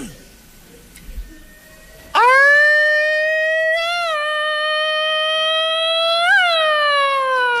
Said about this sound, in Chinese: 警车来了